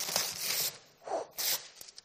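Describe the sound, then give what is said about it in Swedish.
Wrapping paper on a gift package is ripped open hastily in a few quick, papery tearing bursts separated by short pauses, followed by small rustles and crinkles. “Han far till paketet och mommo säger, ja men vänta nu lite. Han bara, nej, jag ska öppna det nu, direkt. Jag vill se vad som är här i. Så han river det hastigt.”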